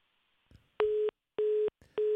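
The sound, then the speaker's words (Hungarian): A telephone busy signal after a live call dropped: three identical steady, mid-pitched tone pulses separated by short silences, the last one cut off at the end. “Elvesztettük az éterben Nyeste Orsolyát, a vezető makrogazdasági elemzőjét az Erste-nek. Újra hívjuk”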